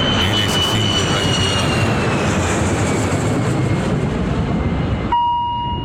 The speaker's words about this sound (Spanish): Ahora lo que va a despegar es el Boeing 630.